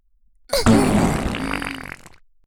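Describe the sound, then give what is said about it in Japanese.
A single loud fart, rumbling and slightly wet, lasts about a second and a half before trailing off into quiet. “ほら臭い。 屁が出るなり必死に匂い嗅いじゃった。”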